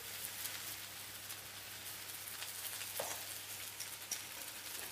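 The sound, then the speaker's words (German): Fried potatoes sizzling in a pan while being seasoned with pepper, a continuous faint hiss with a few soft crackles and light pops scattered through it. “Würzen im Prinzip unsere Bratkartoffeln jetzt hier mit Pfeffer.”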